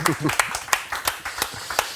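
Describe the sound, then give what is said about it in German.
Scattered clapping greets two guests at a tattoo convention: a handful of sharp, separate claps mixed with people talking. “Applaus für euch.”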